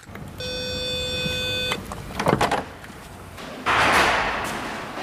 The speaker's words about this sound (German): Die schwere Eingangstür eines Gründerzeithauses in der Nähe des Kölner Stadtgartens öffnet sich.